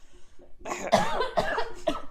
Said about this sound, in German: Oh, warte, ich muss husten.